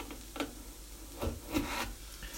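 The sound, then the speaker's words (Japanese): A knife cutting a carrot into halves and quarters on a cutting board while curry is cooked: a few faint, dull knocks and scrapes scattered with pauses between them. “人参を切っていきましょうまず半分に割ってですねさらに半分に割ってで4分の1に割ってですね”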